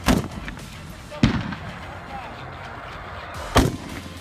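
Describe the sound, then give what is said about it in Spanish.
Gunfire from a machine gun shot close to soldiers: three sharp, loud bangs spaced well apart, each fading quickly into a low rumbling background. “Les disparan con una ametralladora muy cerca de las joyas de la familia y los pobres efectivos nomás tiemblan.”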